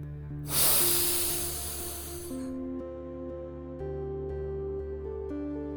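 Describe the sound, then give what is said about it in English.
A gentle, airy inhale lasts about two seconds as a slow breath is drawn in during a relaxation exercise. Soft, sustained tonal music plays steadily underneath and continues after the breath fades. “with a very gentle smile, breathe in.”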